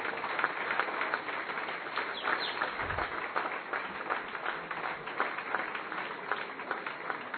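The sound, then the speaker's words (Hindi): An audience claps to welcome a guest with flowers and tilak: a steady, continuous patter of many hands, fairly faint and without pauses. “और हम सब तालियों से स्वागत करना ना भूलें।”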